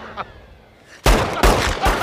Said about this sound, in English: Multiple officers open fire.